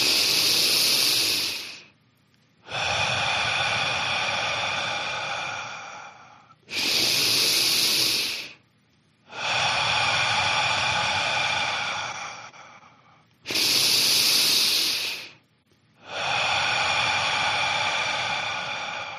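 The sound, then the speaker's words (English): Slow, controlled breathing: three cycles of a sharp, hissy inhale through the nose followed by a longer, softer exhale through the mouth, with brief pauses between, steady and clear with no talking. “Now inhale through your nose a little deeper. Exhale through your mouth for 4 seconds. Inhale nose for 2.”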